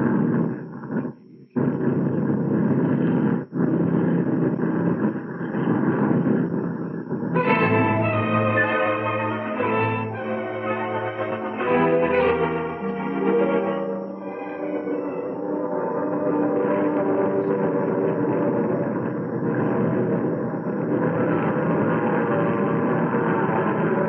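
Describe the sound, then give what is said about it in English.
A military aircraft making a low approach past the Westover control tower with its left landing gear not locked properly, giving a steady, loud rumbling engine drone whose tonal pitch shifts and wavers through the middle of the pass. “We're going to make a low approach past the tower. Will you make a visual check on our left gear? Over.”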